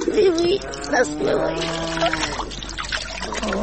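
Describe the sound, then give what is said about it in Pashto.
Hands being washed with soap under cold water, pouring and trickling liquid with splashy bursts, while voices talk over it. “هغه صابونداریم ځان ته نږدې کړه. شابسې لاسونه دې راکړه. دا اوبه څومره سړې دي.”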